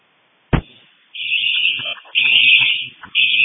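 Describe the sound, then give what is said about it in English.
High electronic alarm tone from a fire alarm alert on a dispatch alarm board, opening with a sharp click and then sounding in three long, steady pulses separated by short gaps. “344, I just received a fire alarm on the alarm board.”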